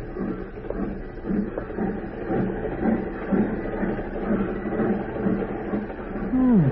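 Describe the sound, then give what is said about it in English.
A passenger train moving along the tracks gives a steady, dense rumble and clatter that holds at an even, moderate level throughout, with no clear voices. “This is such a beautiful scenery. And the train is to go so fast here. It's to make a man feel so important to ride on it.”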